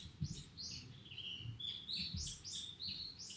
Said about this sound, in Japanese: 太郎さんが、ちょっと鳥の声聞いてもうてなんか喋られへんなってきた